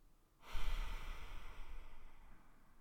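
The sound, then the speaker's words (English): A single long, deep breath taken during a relaxation exercise. It begins after a brief pause and swells into a steady, airy rush that slowly tapers over the remaining seconds. “Let's just start by taking a few deep breaths.”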